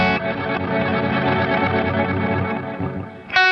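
A guitar effects pedal in strum mode adds octaves, sustaining a thick, shimmering chord rich in stacked harmonics that fades slightly, followed by a bright new note at the very end.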